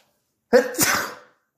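A single loud, sharp cough bursts out abruptly, followed by a breathy, rasping tail, all lasting under a second with nothing else heard.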